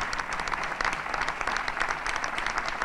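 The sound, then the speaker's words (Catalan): Applause for a speaker at the end of an hour-long festival proclamation in Sitges: dense, steady clapping from a crowd, continuous and even throughout with no pauses or voices standing out. “i doncs rep els aplaudiments i baixa.”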